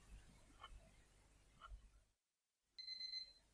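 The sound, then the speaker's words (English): A neighbor's alarm clock rings late on a Tuesday morning, around 11 a.m.: a single short burst of bright, high-pitched electronic beeping. It breaks in loudly after faint background noise and a moment of near silence. “This is the sound of his alarm clock ringing.”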